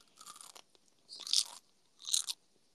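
Crunchy gummy candy being chewed: three crisp crunching bursts separated by quiet gaps, the second and third louder than the first, with no voices.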